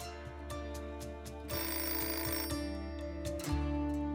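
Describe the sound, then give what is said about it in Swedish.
A telephone rings for an incoming call, a fairly faint electronic ringing in repeated short bursts that continues for several seconds and grows briefly louder partway through. “Mitt i allt det här får han ett samtal det är ledningen för innebandyklubben Grasshoppers i Zürich.”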